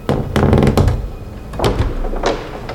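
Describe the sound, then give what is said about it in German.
A coffin lid is opened, producing a quick cluster of heavy knocks and hollow thuds, a pause, then a few more dull impacts, fairly loud and with no voices. “Ein Sarg formiert sich. Ihn zu öffnen überlasse ich gerne dir, Bob. Da liegt bestimmt ein Vampir drin. Der Deckel öffnet sich.”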